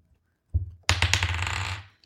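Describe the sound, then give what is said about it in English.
Dice are rolled during a tabletop role-playing game. A single knock is followed by a rapid clatter of bouncing and rattling that lasts about a second and then dies away, with no talk. “What is wrong with this dice? It sucks. Another 9.”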